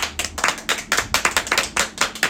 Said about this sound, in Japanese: だんだん拍手増えてきたね、これでね。